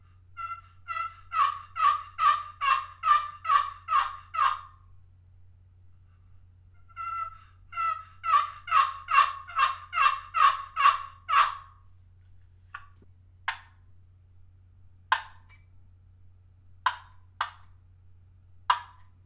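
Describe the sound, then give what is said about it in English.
Handmade diamond wood turkey box call played in two runs of rapid, raspy yelps separated by a short pause, followed by a few spaced single notes, with a low steady hum underneath and no talking. “Evan Murphy's box call made by Doug Morgan. And I'm still trying to decide if I should give this call to Evan or not. Take a listen.”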